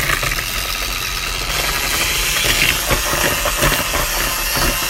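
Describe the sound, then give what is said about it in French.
Eggs and sugar being beaten for a chocolate batter make a steady, dense whirring drone with a hissy, rattling texture that holds at a fairly loud, even level throughout, with no talking. “Maintenant, on va battre les œufs et le sucre.”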